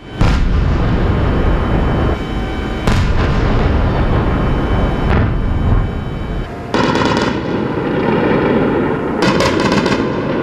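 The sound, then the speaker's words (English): Explosions and anti-aircraft fire from a drone and missile attack on Kyiv in the early hours, a loud continuous roar punctuated by several heavy booming blasts and rapid crackling bursts of gunfire, with no voices. “This was the sound of the attacks and anti-aircraft over Kyiv in the early hours of the morning.”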